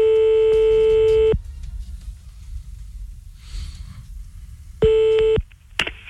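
Touch tones of a telephone number being dialled for a call: two steady electronic beeps, a longer one and then a shorter one, separated by a stretch of faint hiss.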